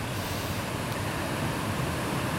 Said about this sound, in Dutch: Ja, hier is wat een kleine waterval onder de promenade door.